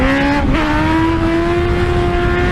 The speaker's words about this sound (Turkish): Sürücü yolda bir anda motosikletin önünü kaldırarak tehlikeli bir yolculuk yaptı.